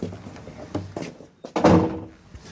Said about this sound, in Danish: Der er lige en dør mere. Skal jeg bare åbne? Ja, du åbner